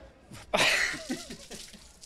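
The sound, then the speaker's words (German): Beer is poured over a handball player during a TV interview after a title-winning Bundesliga match: a sudden loud splash, then short vocal sounds as it fades. “Also beim Interview eine Bierdusche habe ich tatsächlich noch nicht bekommen, das ist schon mal besonders.”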